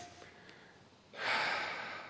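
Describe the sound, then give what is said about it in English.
One slow, deep breath, a soft airy hiss that swells after a quiet start and then fades gradually, heard alone during a guided breathing moment. “Just breathe in, breathe out. Do it with me.”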